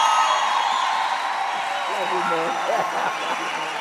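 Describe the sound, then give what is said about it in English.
An audience welcomes a bishop with steady applause and cheering, a dense wash of clapping with a voice talking over it. “Let's stand and give a warm welcome to Bishop Nwaka as he comes to the fore. Come on, everybody. Oh, come on, come on. That's not a good welcome.”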